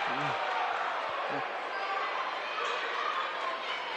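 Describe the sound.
A basketball is dribbled on a court during a game. Its thuds sit under continuous crowd noise, and a voice is heard briefly.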